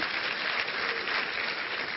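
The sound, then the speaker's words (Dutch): An audience applauding at a church service, with dense, steady clapping from many hands that holds an even level throughout and has no voices on top. “Ah, geef ze ook eens even een applaus.”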